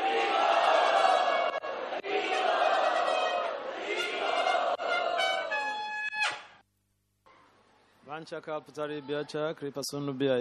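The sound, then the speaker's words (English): A temple crowd loudly chanting a traditional welcome for a visiting holy man, many voices in a dense, sustained roar. After a brief pause a single voice continues alone. “So, let us welcome His Holiness Bhakti Vasudev Maharaj to Shishi Radha Gopinath Mandir in our traditional style by loudly chanting.”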